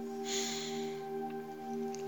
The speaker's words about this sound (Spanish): Una vez más, inhala